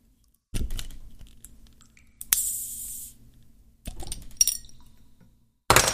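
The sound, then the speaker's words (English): A beer being cracked open and spilling: a few sharp clinks and knocks, a burst of bright fizzing hiss, then more scattered clattering and a final loud burst, with quiet gaps between. “I gotta crack a brew open for Nevada. Let's hope this doesn't break again.”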